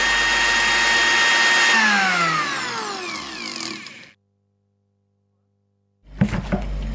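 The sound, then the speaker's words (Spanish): A blender motor runs with a loud, steady whine whose pitch sinks as it winds down, then cuts out. After a few seconds of silence, a short burst of noisy clatter follows. “Hoy la licuadora se apodera de nuestros cuerpos.”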